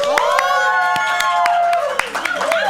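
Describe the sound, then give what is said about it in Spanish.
A live auditorium audience shouts and cheers, a dense wash of raised voices broken by scattered sharp claps. “Y para el público que nos acompaña en vivo, aquí en el auditorio, que yo les pido que griten un poco para que ustedes los puedan escuchar.”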